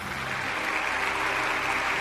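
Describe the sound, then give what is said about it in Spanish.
Audience applause at a Michelin star gala in Murcia as a dining room award is presented, steady and dense clapping from many hands that continues evenly at a moderate level throughout. “que se anote el aplauso”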